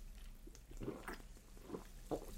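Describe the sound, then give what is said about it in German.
Someone drinking: a few faint, soft gulping and swallowing sounds spaced irregularly, quiet and without talk. “Entschuldigung, Sternabzug fürs Trinken.”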